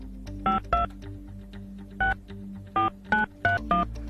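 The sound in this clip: Seven telephone keypad tones sound while a phone number is dialed. The short, even electronic beeps come in uneven groups with pauses between them, over a low steady hum.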